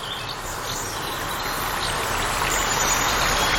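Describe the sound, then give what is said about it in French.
Stream water churning as if boiling, stirred by piranhas: a steady, continuous bubbling rush that grows slightly louder toward the end, with no voices. “imagine-toi marcher le long d'un cours d'eau. Devant toi, l'eau paraît bouillir.”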